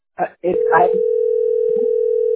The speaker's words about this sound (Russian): Я звоню в бухгалтерию.